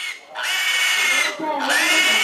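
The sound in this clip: A frightened piglet squeals at a market in a few long, piercing, high-pitched cries that run almost without a break and stay loud throughout.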